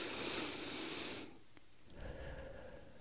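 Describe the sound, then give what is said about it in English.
Slow deep breathing, with the emphasis on a long, airy exhale. A quieter stretch follows, then the softer start of another breath. “Okay, I'm going to just do three breaths.”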